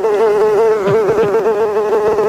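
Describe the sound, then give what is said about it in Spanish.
Loud, continuous buzzing of many houseflies during a fly plague in a town. The steady whine wavers slightly in pitch throughout, with no voices. “Pero de momento, hoy, Carles, si se asoman a la ventana, aún ven muchas moscas.”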